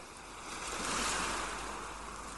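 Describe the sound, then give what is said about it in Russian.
Ocean surf rolling in, a broad steady wash of breaking sea waves that swells louder mid-clip and then eases, alone with no voices. “Все пространство вокруг вас наполняется шумом прибоя, шумом морской волны.”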